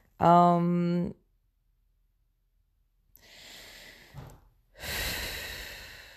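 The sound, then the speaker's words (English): Human breathing: a brief voiced, sigh-like exhale, then a long silence before two drawn, breathy respirations, soft and without speech. “just breathing.”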